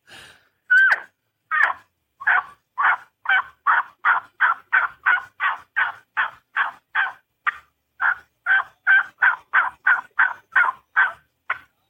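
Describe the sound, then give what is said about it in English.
Hand-held game call played repeatedly, each note starting high and breaking into a harsh rasp. The squawks repeat many times in a steady rhythm, loud and alone. “I used to say the words wee-op, wee-op, wee-op, and that wee is a high pitch, and the wop is when you're breaking into the rasp. And I've got a call here, might do a little bit of that.”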